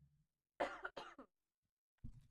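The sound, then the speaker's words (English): Two sharp coughs close together from a person suffering from spring allergies, quiet overall. After a short pause comes a brief, rougher throat sound. “Excuse me one second, I need to cough really quickly.”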